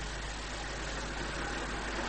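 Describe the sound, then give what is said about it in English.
An old car's engine idles with a steady, unbroken rumble and hiss that stays at the same level throughout, with nothing else heard. “Look at that venerable heap of a car.”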